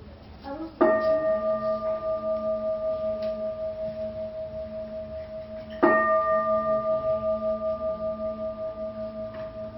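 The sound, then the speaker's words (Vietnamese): A Buddhist temple bell rung during a precept ceremony, struck twice about five seconds apart. Each stroke rings out loud and clear with a bright, steady hum that slowly fades before the next strike. No other sound accompanies it. “Đến thầy ba tiếng chuông.”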